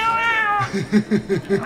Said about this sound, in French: Qui c'est qui a laissé le chat miauler dans le micro?